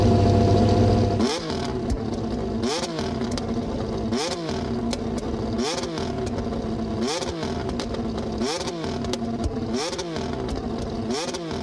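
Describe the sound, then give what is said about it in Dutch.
A Mercedes-powered McLaren MCL36 Formula One car engine, freshly started, barks through eight loud, evenly spaced revs. Each one sweeps sharply up and back down in pitch over a rough, clattering idle, after a brief steady drone at the start. “onlangs deelde McLaren ook nog een video en ze voor het eerst Mercedes aangedreven MCL 36 starten.”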